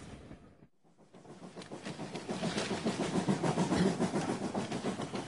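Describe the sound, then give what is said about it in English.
A fast passenger train bound for London rumbles along with a steady, rhythmic clatter of wheels over rail joints. The sound dips briefly near the start, then swells and stays loud. “This is the fast train. Only 1 hour and 10 minutes.”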